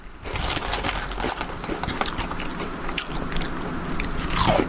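Crinkle-cut, chip-shop salt and vinegar crisps crunch between teeth in many sharp, crackling bites and chews. The brittle snaps come in an uneven run at a fairly quiet level and grow slightly louder toward the end.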